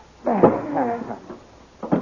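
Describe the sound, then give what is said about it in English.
A closet door in a palace being opened: a drawn-out, wavering hinge creak, then after a pause a shorter second creak. “Now open that door, Dale. Yes. Now we will put him in that closet.”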